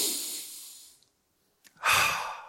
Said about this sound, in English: All right, everyone take a deep breath this morning.